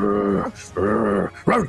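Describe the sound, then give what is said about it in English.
A human voice imitates a dog's low growl in three rough, voiced bursts. The first two are drawn out, about half a second each, and the last is shorter and rises, all loud with brief gaps between. “moves up to it, and begins growling in the direction of, well, as far as you guys are concerned, all of you and the snake, just this low kind of like,”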